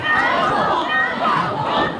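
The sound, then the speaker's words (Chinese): A graduation concert audience cheers and shouts for an encore, a dense, continuous wash of many voices that stays loud throughout. “在观众高喊返场的欢呼声中”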